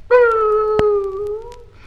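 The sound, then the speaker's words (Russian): A puppy howling: one sustained, tonal wail that holds fairly steady and sags slightly in pitch over nearly two seconds, with a sharp click partway through. “и изо всех щенячьих сил нищий щен заголосил”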